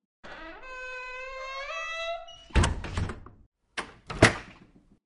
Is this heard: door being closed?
yes

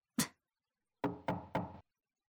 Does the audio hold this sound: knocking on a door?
yes

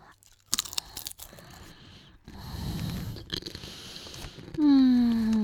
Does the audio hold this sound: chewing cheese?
yes

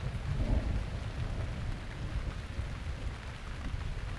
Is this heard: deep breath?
no

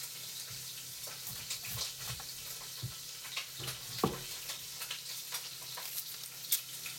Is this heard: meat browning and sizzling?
yes

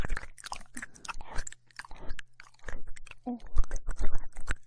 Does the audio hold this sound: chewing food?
yes

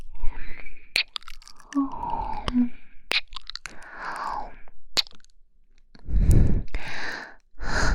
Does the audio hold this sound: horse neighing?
no

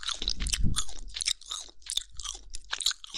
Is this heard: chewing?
yes

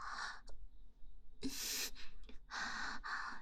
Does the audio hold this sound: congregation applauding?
no

